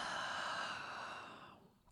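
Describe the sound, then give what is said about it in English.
A long exhaled breath during a guided breathing practice: a steady, airy rush of air that holds, then gradually fades away, ending in a small soft puff. “And we take another breath. Exhale.”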